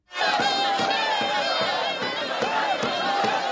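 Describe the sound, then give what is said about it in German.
Several hundred Turkish Kurds cheer at the Habur border crossing at dawn as Peshmerga fighters arrive from northern Iraq. Many voices shout and whoop at once in a loud, continuous roar, with high rising calls over it. “Türkische Kurden begrüßen die aus dem Nordirak ankommenden Peschmerga. Einige hundert Menschen haben sich versammelt, um ihre Begeisterung zu zeigen.”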